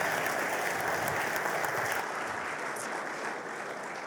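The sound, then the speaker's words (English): An audience at a morning church service applauds to welcome a youth and young adults pastor, a steady, dense wash of clapping that eases slightly in the second half. “I invite you to put your hands together as we give him a Seed's welcome.”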